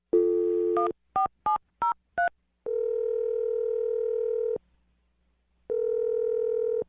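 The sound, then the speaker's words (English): A telephone number being dialed: a tone, then a quick run of short keypad beeps at shifting pitches, then two long steady ringing tones separated by a gap of silence. “I'm going to dial the number right now. Here we go.”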